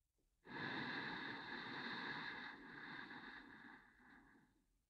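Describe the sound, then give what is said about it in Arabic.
A deep inhale taken during a guided breathing exercise: one long, steady breath drawn in for about four seconds, softening a little toward the end. “رح تكون أطول شوي مع نفس أعمق فخلينا نبدأ شهيق”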